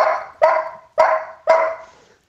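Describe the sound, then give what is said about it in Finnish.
A person imitating a dog barking: four loud, evenly spaced bark-like calls, each with a sharp onset that fades away, with nothing else heard between them. “mulla olisi ääninäyte koirasta. Siinäpä olisi.”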